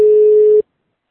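Telephone tone as a call is being connected: one loud, steady, mid-pitched beep lasting just over half a second, then silence.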